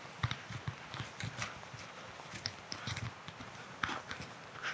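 Footsteps of a person walking, many soft, evenly spaced steps in a steady rhythm, fairly faint and heard alone.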